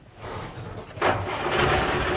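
An old secondhand car's engine cranks with a whirring noise, then catches about midway and runs on at a louder, steady roar.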